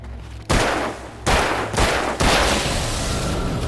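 Gunshots fire in a few loud, sharp blasts roughly half a second apart, each bursting out and trailing into a long, roaring decay, with no voices.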